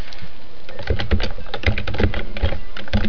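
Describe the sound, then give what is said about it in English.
Typing on a computer keyboard: a rapid clatter of many keystrokes in an uneven, busy rhythm, loud and alone with no voices. “Type iPhone unlocking.”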